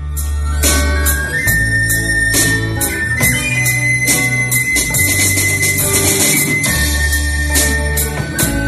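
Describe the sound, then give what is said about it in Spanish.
A band formed by teachers and students plays at a graduation, with steady loud music carried by a deep bass line and regular drum hits under bright cymbal wash, continuous across the whole stretch. “donde, por cierto, actúa un grupo de música que han montado profesores y alumnos y que suena así.”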